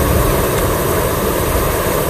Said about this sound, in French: on va prendre la montgolfière, toutes les deux, comme c'est fait là, parce que bah, il n'y a plus que ça. Hein. Allez, on y va.